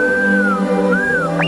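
The R2-D2 droid whistles on a Star Wars Christmas album, a bright electronic tone that wavers, dips and returns, then ends in a quick upward chirp, all over sustained musical notes.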